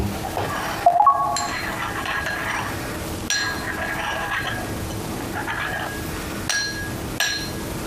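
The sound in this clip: A spoon clinks against a glass as water is stirred, giving a few sharp, bright clinks spread out over a steady background hiss.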